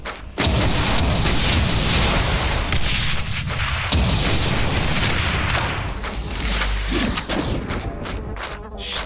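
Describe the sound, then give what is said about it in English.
Rocket explosions in a video game: loud, booming blasts with heavy low rumble, one after another through the whole clip, with a few sharper hits standing out. “Oh, you like rockets, huh?”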